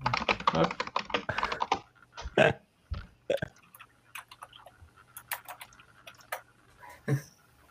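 Someone types on a computer keyboard. A dense, rapid run of key clicks lasts about two seconds, then gives way to slower, scattered taps and clicks separated by short pauses, all fairly faint.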